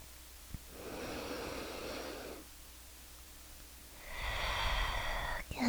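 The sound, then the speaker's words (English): Deep, slow breathing in two long, noisy breaths separated by a quiet pause, with the second breath louder and heavier than the first. No one speaks. “Deep breaths.”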